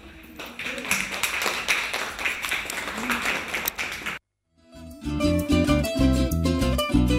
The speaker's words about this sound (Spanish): Bueno, muchas gracias, cuarto grado. Nos despedimos con un aplauso.